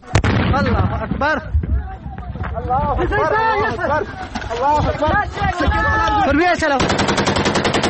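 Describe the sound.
Gunfire and men shouting during a night border clash between Taliban fighters and Iranian border police in Nimroz's Kang district; loud overlapping shouts over scattered shots, ending in a rapid, steady automatic burst.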